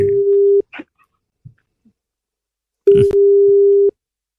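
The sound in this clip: A telephone tone sounds while a call is placed to Nairobi: two steady, low, even tones, the first short and the second about a second long, separated by near silence broken by faint clicks.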